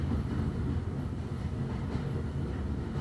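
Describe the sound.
Steady rumble of a train carriage crossing a viaduct: a continuous, loud low-pitched roar with dense wheel-and-track texture and no clear breaks, with no voices.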